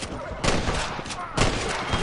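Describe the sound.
Gunfire crackles in a western video game town, with a few sharp shots cutting through a dense, steady wash of noise.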